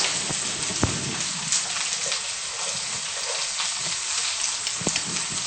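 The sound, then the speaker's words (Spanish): Mushrooms sizzling as they fry in a pan for a soup served with rice and soy, a steady dense crackle with a few sharper pops. “Freímos un poco y luego la seta.”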